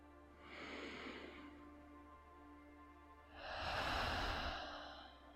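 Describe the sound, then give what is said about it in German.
A deep breath is drawn in through the nose and then released through the mouth. A soft, hissing inhale is followed by a pause, then a longer, louder, airy exhale. “Atme auch hier tief durch die Nase ein und lösend durch den Mund aus.”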